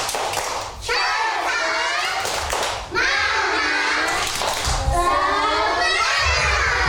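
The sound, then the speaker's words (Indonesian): Children doing a tepuk semangat, a rhythmic spirit clap, at a Sunday school gathering: many young voices chant in unison over loud, steady thumping claps that run through the whole clip. “Coba Miss mau ajak lagi tepuk semangat yuk. Tepuk semangat.”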